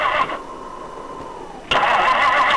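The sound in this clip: Car engine cranking but failing to start because its gas line is frozen: loud starter grinding in two bursts separated by a quieter stretch, with no voices.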